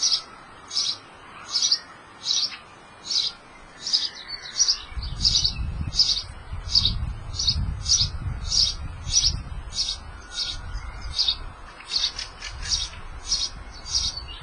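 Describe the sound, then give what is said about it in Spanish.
Birds chirp from a nest hidden in the roof of a courtyard house beside a sauna. Many short, high chirps repeat in a steady rhythm throughout, and a low rumbling noise joins partway through. “escondido en el tejado 2 metros sobre nosotros, cuando descansamos de la sauna, hay un nido de pájaros. Esto es su canto.”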